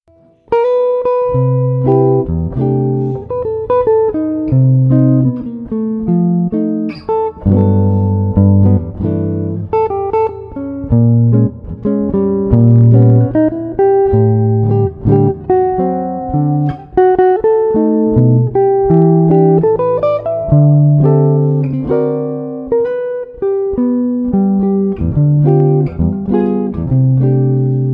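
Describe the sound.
Last eight bars of a jazz standard played by a full ensemble, with rich sustained harmonies and moving melodic lines, steady and fairly loud throughout with no talking.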